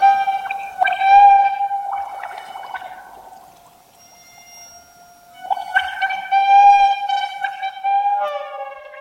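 An electric whisk played as a musical instrument, its whirring motor forming sustained harmonic tones that shift in pitch. The sound sinks to a quiet drone midway, then swells loud again.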